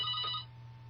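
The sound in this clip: A telephone ringing with an incoming call to a radio show: a single short electronic ring burst that stops abruptly, leaving a faint low hum. It is quiet overall.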